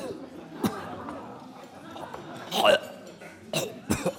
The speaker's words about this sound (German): Er erwacht, spuckt aus und hustet, alles lacht.